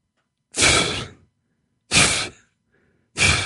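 Deep breaths are drawn down into the belly, three airy, breathy rushes in a slow, even rhythm with pauses between them. The last breath is cut off.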